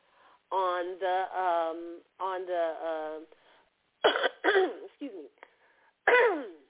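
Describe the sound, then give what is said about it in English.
A person coughs and clears their throat in a few short, rough bursts, after stretches of voiced, throaty sounds. The bursts are moderately loud and come alone, with no other sound. “I told you I was going to be coughing.”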